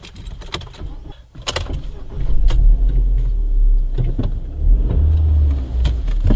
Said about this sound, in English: what I want you to do is to drive out to the left here, up to the end of the road there, and we turn right out onto the road.